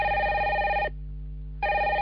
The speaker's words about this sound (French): Ah, en plus, il y a votre téléphone qui sonne.